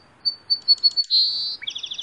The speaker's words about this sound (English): It is not possible to listen to the melody of the song sparrow without realizing that we are released from the cold clutch of winter